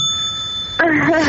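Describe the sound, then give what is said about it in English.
A bell rings with a bright, sustained metallic tone, then a voice begins talking as the ring ends. “I'm gonna ring the bell.”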